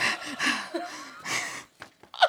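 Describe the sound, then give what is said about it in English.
A voice imitates heavy breathing in a bathroom, a few breathy, gasping inhales and exhales, some with a voiced edge, at a fairly soft level. “when you get into the bathroom and you breathe, you're like...”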